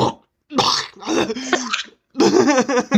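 Throat clearing as someone hocks up a loogie: a few harsh, raspy bursts of hacking and gurgling with short pauses between them, ending in a longer throaty rasp.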